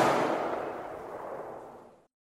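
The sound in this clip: A ceremonial rifle volley is fired by a Princess Patricia's Canadian Light Infantry honour guard at a farewell for a soldier, heard as one heavy blast that rumbles and fades away over about two seconds.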